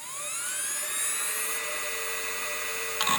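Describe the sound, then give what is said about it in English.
Mechanical hard drive in a 2005-era PowerBook laptop spinning up, a faint whine that climbs steadily in pitch and then holds as a thin, steady musical tone, with a small click near the end. “like my 2005 era PowerBook would sound kind of like this”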